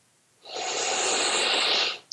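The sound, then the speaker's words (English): One big, deep breath is taken during a tapping relaxation exercise. It is a single airy rush lasting about one and a half seconds, rising quickly and ending abruptly, followed by a tiny click. “Big deep breath.”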